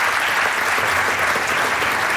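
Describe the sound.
Audience clapping at a prize ceremony where a trophy and prize are presented: a steady, loud wash of many hands clapping together, continuous and even throughout, without distinct voices.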